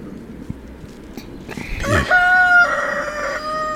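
A rooster crows once, a loud, drawn-out call with a clear ringing tone that breaks in partway through and holds to the end, after a stretch of quiet background noise.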